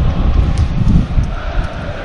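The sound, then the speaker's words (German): Wind buffets the microphone at a football stadium in windy weather, producing a continuous low rumbling roar with uneven gusty surges. “Das Wetter ist jetzt etwas windiger geworden. Also falls ihr es so ein bisschen da mal röhren hört in den Lautsprechern bei euch zu Hause.”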